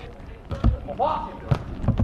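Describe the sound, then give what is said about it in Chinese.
A volleyball is served during a match, giving a few dull ball thumps. A commentator's voice talks over the impacts. “十九比十八。张泰来发球，”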